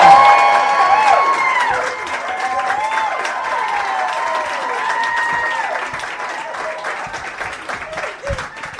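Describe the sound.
An audience at a stage show applauds and cheers loudly for two guests being welcomed on, a dense wash of clapping with whoops and rising and falling whistles, easing slightly after the first couple of seconds.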